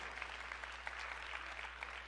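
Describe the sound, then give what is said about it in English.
A church audience applauds with a steady, even patter of many hands that stays quiet and unbroken throughout. “can we welcome everybody who's with us online? Let's thank them for being with us as well.”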